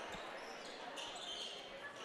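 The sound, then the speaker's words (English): A basketball is dribbled on a court during a game, with faint repeated bounces beneath a steady wash of crowd noise. “And Fickner going to dribble now, and he's going to dribble to the near wing and hand it off to McKibben.”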